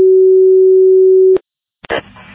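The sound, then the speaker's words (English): A fire radio dispatch beep sounds as one long, steady mid-pitched tone lasting over a second. It cuts off with a click, followed by a short silence and then a brief burst of radio noise. “Beep.”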